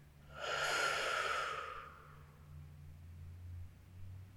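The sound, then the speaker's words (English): Slow breathing during a guided meditation, in through the nose and out through the mouth: one long, loud, airy breath rises and fades over about one and a half seconds, with a soft low drone continuing underneath afterward. “One more time into the nose. And out through the mouth.”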